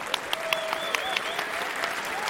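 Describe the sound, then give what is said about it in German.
Audience applause at a prize giveaway event: a short, faint burst of clapping with a few sharper claps standing out from the steady patter. “Also das ist mindestens ein 10-Punkte-Applaus wert.”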